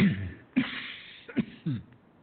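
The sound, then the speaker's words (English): Several harsh coughs come from someone whose sip of lemonade went down the wrong way. They are short rough bursts separated by pauses, and the last ones follow in quick succession. “I swallowed something down the wrong way. So I'm, the lemonade I'm sipping kind of went,”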